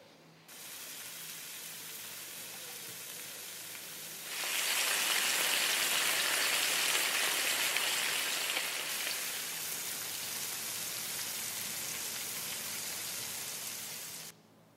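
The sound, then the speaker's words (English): Bacon frying gives a steady, rain-like hiss and crackle that grows louder for a few seconds, then settles back to a slightly softer sizzle before stopping abruptly near the end. “All clips were videos of bacon being fried.”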